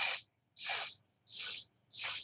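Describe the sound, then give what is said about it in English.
Soft nasal breaths during an alternate-nostril breathing exercise: four evenly spaced, airy hisses with quiet pauses between them, faint and with no talk. “Now breathe in through the same nostril to the count of four.”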